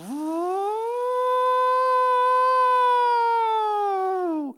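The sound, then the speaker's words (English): An air raid siren wails as one loud, sustained tone. It climbs at the start, holds steady with rich overtones, then drops and cuts off abruptly, with no voices. “I don't know if you've ever been through an air raid siren before”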